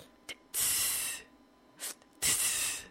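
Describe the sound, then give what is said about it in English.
Hissing, teapot-like breathing from a person: two short, sharp breaths alternate with two long, loud, airy exhalations, with no talk. “I always do a really, really weird like breathing. I always sound like a, I think my boyfriend says I sound like a teapot.”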